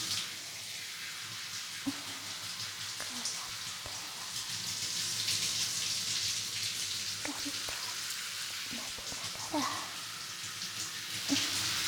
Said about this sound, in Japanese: 頭皮や髪の毛を軽く拭きながら、時間をかけて流していきますよ。